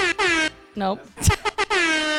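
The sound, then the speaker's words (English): Air horn blasts: two sustained, loud, harmonic-rich honks, one at the start and one at the end, with voices talking in between. “I demand that you open with you critiquing your own air horn usage.”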